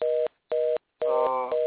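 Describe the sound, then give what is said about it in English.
A phone line tone after a dropped call pulses in three loud, steady beeps with short gaps between them. The last beep runs longer than the first two, and the whole sound is thin and narrow-band, like audio heard over a telephone. “No, Daryl's phone dropped.”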